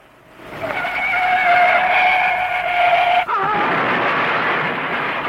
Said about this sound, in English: Gee, you can hear that crash all the way up here.